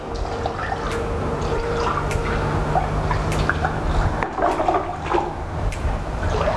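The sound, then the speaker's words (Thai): Water poured over a bathroom floor to rinse it clean after scrubbing: a steady, loud splashing and rushing wash that runs the whole way through, with a few sharper drip-like spikes and no talk. “ใช้น้ำฉีดหรืออาจจะน้ำราดแบบนี้นะให้สะอาดเลยครับ”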